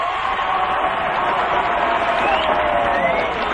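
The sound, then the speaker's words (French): Loud, sustained crowd cheering and applause greet a silver medallist at an equestrian show-jumping competition, a dense, steady roar that holds at the same level throughout. “Et là, ce sera l'ovation. Michel Vaillancourt, médaille d'argent.”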